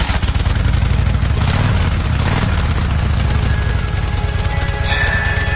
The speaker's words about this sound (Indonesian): Aku mengendarai motor dengan sedikit ngebut karena untuk mengejar waktu.